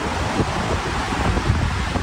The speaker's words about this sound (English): That's the sound of a raging Los Angeles River after parts of the city got more than 6 inches of rain.